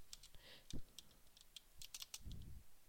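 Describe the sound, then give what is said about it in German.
A computer keyboard clicks softly with many light, scattered key taps, and one deeper, heavier thump from a press of the space bar stands out near the start. “Ich drücke halt aus Versehen Leertaste, ist der Witz.”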